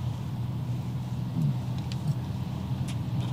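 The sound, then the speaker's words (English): A car drives along a Nebraska road, making a faint, steady, low rumble of engine and road noise that stays even throughout, with a few light clicks over it. “All right, drive safely. Thank you, Nebraska Department of Roads. Now we can go faster.”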